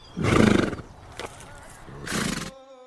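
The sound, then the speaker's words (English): Two loud, shaky whinnies come from a king's horses, with a pause between them and a brief faint sound in the gap. “One time, when the king was with his horses,”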